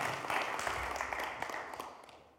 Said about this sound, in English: give her another round of applause, because this woman has done so much.